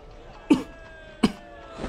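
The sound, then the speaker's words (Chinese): Low, hoarse coughing from a man standing in falling snow: two short, sharp coughs about three quarters of a second apart, fairly soft, over a quiet background. “顾元白低咳了几声”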